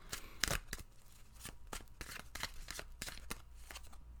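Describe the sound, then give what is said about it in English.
A deck of tarot cards is shuffled, with many quick papery riffling and snapping bursts at an uneven rhythm, standing alone without talk. “All right, everybody, let's pull a tarot card. So let's see what's coming up for this week or this weekend.”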